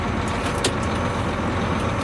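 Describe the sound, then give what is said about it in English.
Heavy, continuous engine and road rumble from a large Class 1 vehicle on the move, a loud, steady low drone with road noise and no break for the whole stretch. “Okay, let's go for a little drive. Because you have to realize that when you're in a big vehicle like this, you can't be in a hurry.”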